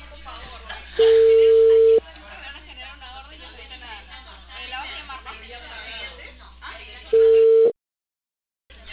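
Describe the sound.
A telephone ringback tone sounds as a call is placed. Two long, steady, mid-pitched beeps are heard, the first lasting about a second and the second shorter, with people talking between them.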